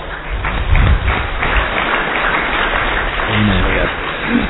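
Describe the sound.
Audience clapping during a Telugu religious discourse, a loud, rough patter of hands that keeps going while a voice speaks over it.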